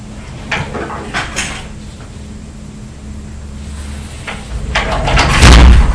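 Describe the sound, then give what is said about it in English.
Doors banging shut in a home, with a few sharp knocks and thuds spread over a low background. The bangs cluster near the start and again near the end, and the last ones are the loudest. “You mustn't bang the doors because there are other people next door and downstairs and they won't want to listen to banging, will they?”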